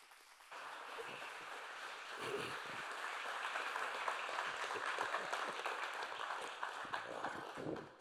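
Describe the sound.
An audience at Calvary Chapel South in Kent, Washington applauds to welcome a speaker, a dense, steady wash of clapping that holds at an even level for several seconds.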